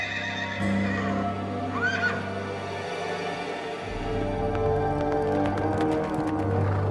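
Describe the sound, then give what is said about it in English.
Hoofbeats of a horse approach from outside, with a brief whinny early on and sharper clip-clop hits building toward the end, all over a sustained musical drone. “the hoofbeats of a horse drew closer from outside”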